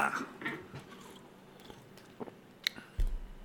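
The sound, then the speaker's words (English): Soft biting and chewing as a guanabana fruit is tasted, with a few moist, squishy bites and mouth sounds scattered through a quiet stretch. “So, I'm about to taste it and see if it's any good. A guanabana.”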